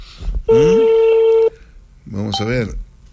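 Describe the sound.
A telephone call being placed during a radio program: one loud, steady electronic tone lasting about a second, followed by a voice speaking.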